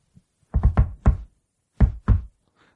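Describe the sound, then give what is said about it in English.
Knocking on a door in an awkward, goofy rhythm: a quick uneven cluster of dull knocks, a short pause, then two more knocks. “And they go and they go to knock on the door, and Michael Keaton knocks first, and he does this little number.”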